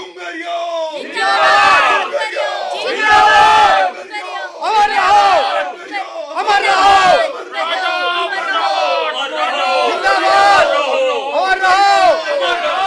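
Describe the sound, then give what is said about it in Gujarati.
A large crowd shouts at a riverbank near a goddess temple, many voices rising together in loud, repeated surges that swell and ease in waves throughout. “તાંત્રિકજી, આ નદીના ઓવારે આટલી બધી ભીડ કેમ?”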